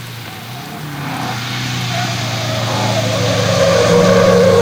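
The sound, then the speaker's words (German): Racing cars lapping a race track: a continuous engine drone with a steady low hum and higher tones that swells slowly in loudness, with no gaps. “Gleichmäßig wie taiwanesische Digitaluhren drehen die Rennfahrer ihre Runden.”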